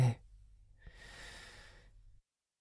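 Someone takes a deep breath in: a soft, airy inhalation lasting over a second, faint and alone.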